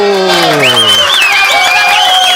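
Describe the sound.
Loud, continuous applause and cheering for a contest winner, mixed with bright tonal sounds.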